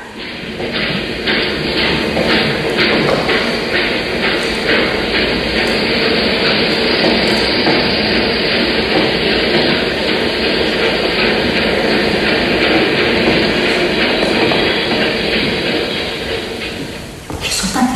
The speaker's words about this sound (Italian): Le trascinano via e il treno riparte.